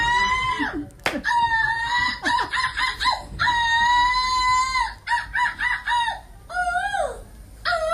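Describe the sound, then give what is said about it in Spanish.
A woman imitates a seagull's squawk at a European gull-screeching championship in Belgium, letting out many loud, harsh, high-pitched cries with bending, wavering pitch, some in quick bursts and others drawn out, separated by short gaps. “consiguió la medalla de plata en el Campeonato Europeo de Graznidos de Gaviotas”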